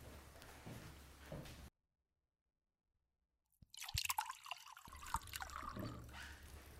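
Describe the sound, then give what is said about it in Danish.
Water is poured into a glass as faint trickling and splashing. The liquid sound breaks off into a short silence, then resumes with small splashes. “Jeg tror faktisk, det er mere fyldt, så jeg vil gå over og hælde lidt mere på.”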